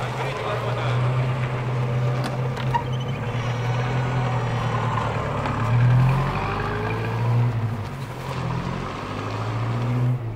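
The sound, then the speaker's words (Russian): Engine of a black car driving off from an institute's grounds: a steady low rumble runs throughout, fairly loud, with a few gentle surges and no clear talk. “Черный автомобиль выезжает с территории института.”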